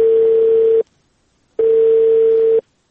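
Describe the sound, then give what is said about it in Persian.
After a telephone line is cut off, a steady, mid-pitched phone tone sounds in two long beeps separated by a gap of silence. “بله سر، تلفون قطع شد.”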